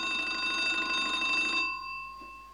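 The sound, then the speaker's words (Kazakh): A telephone rings once with a bright, buzzing bell-like tone that holds steady for about a second and a half, then cuts off and leaves a fading tail. “Ешті әл үшін телефон жыңырды, ешті дін ақ.”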